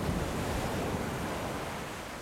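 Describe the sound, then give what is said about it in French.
Ocean waves in a storm form a dense, continuous roar of surf and wind. The sound is fairly faint and steady, thinning slightly toward the end with no distinct single wave breaks. “Apercevoir un navire perdu dans l'océan, dans la tempête, il y a longtemps.”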